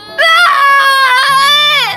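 A loud, high-pitched crying wail, one long sustained sob with a wavering tone that dips in pitch at the end, heard alone without talk.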